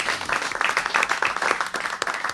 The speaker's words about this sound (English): Give a hand to the audience. Yay, audience.